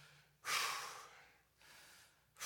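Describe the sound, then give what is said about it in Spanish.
A person exhaling loudly in breathy, hissing rushes of air. The first breath is strongest, a softer one follows, and another begins at the very end. The sound is quiet overall, with no talk. “yo tengo la costumbre de exhalar”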